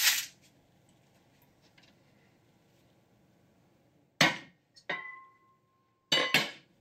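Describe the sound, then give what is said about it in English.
A knife clinks against a hard surface while butter is cut into small pieces: a few separate sharp knocks with long quiet gaps between them, one followed by a brief metallic ring. “it's a lot easier to melt the butter if you cut it into smaller pieces first. So I'm gonna do that right now.”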